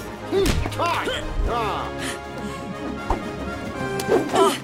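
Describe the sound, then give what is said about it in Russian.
Punches and strikes land during a practice session, a few sharp whacking impacts scattered among voices and effortful vocal sounds. “отрабатывает удары”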